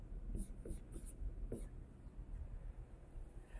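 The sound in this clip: Writing during a mathematics lecture: faint, scratchy strokes come in short bursts over a soft, steady background hush.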